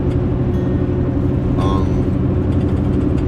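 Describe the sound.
A van drives down a road with trees on either side, giving off a steady, loud low engine rumble and road noise that holds without a break through the whole stretch.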